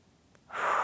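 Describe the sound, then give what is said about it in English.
A breath taken during a Pilates breathing exercise: a near-silent start gives way to a loud, airy rush of breath that holds steady to the end, with no talk. “can I try to breathe in and out without puffing this?”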